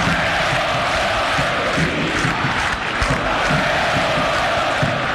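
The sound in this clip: Olimpia football fans in the stands raise a loud, sustained roar of cheering and shouting that stays dense and even from start to finish.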